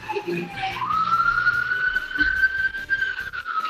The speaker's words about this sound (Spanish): Y con las sirenas de fondo.